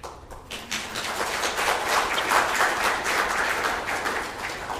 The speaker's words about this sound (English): in fact, you should really clap twice